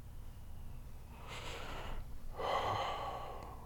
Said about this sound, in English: It's okay. It's okay. Deep breaths, deep breaths, deep breaths.